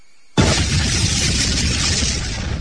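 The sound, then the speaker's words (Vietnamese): Firecrackers go off on both sides of a mountain at a celebration. A sudden loud burst opens into a continuous dense roar of crackling blasts that stays strong to the end. “tiếng pháo ở hai bên núi đùng đùng nổ lên bất tuyệt.”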